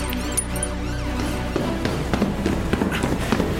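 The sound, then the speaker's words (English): Footsteps of a team rushing up stairs into a building toward a flat: a quick run of many light taps and thumps over a steady low tonal drone. “Bravo team, climbing the stairs.”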